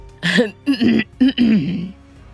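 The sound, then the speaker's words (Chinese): A person clears their throat in a few short, throaty voiced bursts with brief gaps between them, loud and with no other speech around it. “沈云琛看着我们这些年轻人，清了清嗓子。”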